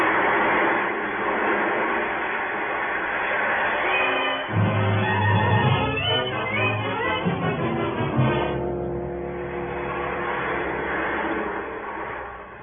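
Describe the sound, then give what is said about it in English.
A roller coaster ride rumbles steadily. The rattling clatter of the cars on the track swells in the middle, then settles back to a continuous low rumble. “How long can a roller coaster ride last?”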